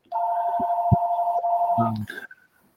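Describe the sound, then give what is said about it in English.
An electronic phone ring sounds as a steady dual-pitched tone for almost two seconds, then breaks off into a short, higher electronic tone before falling silent. “Do you need to take that? No, I never need to take that. That's the phone that I don't ever answer.”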